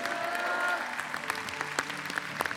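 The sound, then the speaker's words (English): Church audience applauding as people are welcomed and congratulated at the altar: steady, dense clapping with a few sharper peaks, lasting throughout. “Let's give them a hand.”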